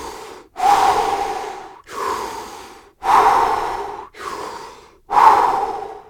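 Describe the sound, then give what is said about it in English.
A person does forceful, rapid breathing exercise breaths called animal breaths, in through the nose or mouth and out through the mouth. Several loud, rushing breaths follow one another in a steady rhythm, each separated by a short silent gap. “try taking 3 animal breaths. You can do this either in through the nose, out through the mouth, or you can do in and out through the mouth.”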